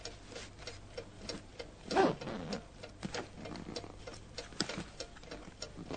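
A table clock ticks beside a bed at night, with steady, evenly spaced ticks that stay quiet and regular throughout, and no voices.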